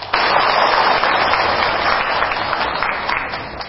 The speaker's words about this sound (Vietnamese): Cho anh chàng pháo tay.